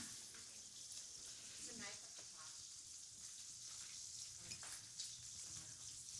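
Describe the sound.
Bacon frying in a pan makes a steady, dense sizzle with scattered small pops and crackles. It stays faint and continuous throughout.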